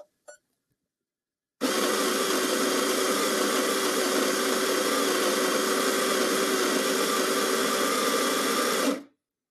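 An espresso machine making an espresso gives a loud, steady buzzing pump drone lasting about seven seconds after a couple of brief clicks, then cuts off abruptly.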